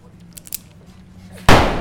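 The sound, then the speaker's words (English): A single gunshot ends a quiet stretch of faint rustles: an abrupt, heavy bang that fills the sound and trails off in a lingering tail. “I shot him right in the back. I shot him right in the back after his big stupid speech.”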